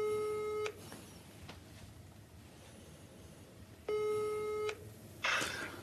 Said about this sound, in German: Warte, ich ruf ihn an. Mach laut.